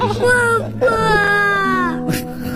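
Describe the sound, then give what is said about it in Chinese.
An infant's whimpering cry, high and wavering, in two long drawn-out wails with a brief catch of breath between them, over a steady low tone. “宝贝儿，你别哭了”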